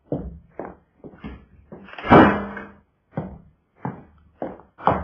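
A door is shut in a manager's office, its heavy central slam standing out among a series of lighter bumps and knocks. Short thumps come before and after the loud closing thud, with no talk.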